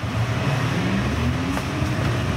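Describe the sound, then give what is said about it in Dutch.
A small pizza delivery vehicle pulls away and takes a bend, giving a steady low motor drone with a faint tone that climbs slightly, running without a break. “Het is natuurlijk een heel klein voertuig. En hij beweegt mee in de bocht.”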